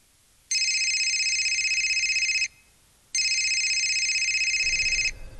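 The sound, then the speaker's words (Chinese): A telephone rings with two long, bright electronic trills of about two seconds each, separated by a short silence. “正说话间，郝水源的电话响”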